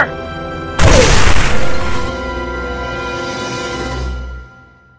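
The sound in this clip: Starship weapons fire slamming into a ship in a sci-fi audio drama: a sudden loud crashing impact swells into a long rumbling roar that fades out after a few seconds, over a steady tonal hum.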